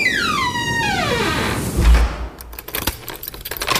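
A cellar door being closed and locked: a sliding whine that falls in pitch, then a low thud of the door shutting, followed by a run of metallic clicks and jangling keys.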